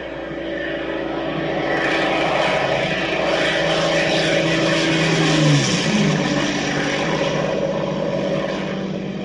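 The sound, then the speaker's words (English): A Merlin engine drives a Supermarine Spitfire, a World War II fighter plane, in a sustained loud, throbbing propeller roar. Its pitch falls as it passes near the middle, then the drone continues steadily. “That sound is the unmistakable music of a Merlin engine powering the Supermarine Spitfire, one of the iconic fighters of World War II and a hero of the Battle of Britain.”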